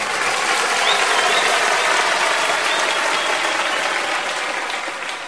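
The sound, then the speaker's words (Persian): A crowd claps in dense, continuous applause. The many overlapping hand claps form a steady crackling wash that holds evenly and then eases slightly toward the end. “خواهی کف بزنی خوشگل کف بزن”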